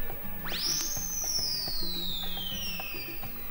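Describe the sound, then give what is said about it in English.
A hand-held whistle blown once, its shrill tone sweeping sharply upward and then gliding slowly down in pitch as it holds for about three seconds, loud over a low background murmur. “Mine happens to be in the form of this whistle, and it's just very simple. When I go,”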